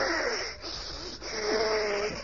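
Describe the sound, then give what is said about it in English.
Exaggerated, wheezy breathing in and out during a doctor's stethoscope check: a few long, raspy breaths with whistling tones, heard alone without talk. “Now, just breathe in and out, please.”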